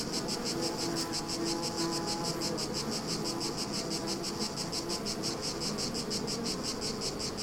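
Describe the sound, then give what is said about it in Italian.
Bees buzz near a beehive on a scorching hot day in sunny foothill countryside near Reggio Emilia, Italy: a dense, continuous drone with a rapid, pulsing high chirr running steadily throughout. “Sentite questo suono? È quello che si avverte avvicinandosi a un alveare in una giornata di caldo torrido nell'assolata panoramica e vitale Pedecollina Reggiana.”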